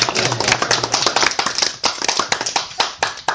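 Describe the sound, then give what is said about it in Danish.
A small round of hand clapping from a few people makes many sharp, uneven claps, busy at first and thinning into scattered claps toward the end. “Det fortjener en lille klapsalve, gør det ikke?”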